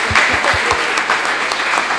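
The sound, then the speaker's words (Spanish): Applause from a group for a child at a neighborhood gathering: dense, steady clapping that fills the whole two seconds at an even level. “Le damos un aplauso.”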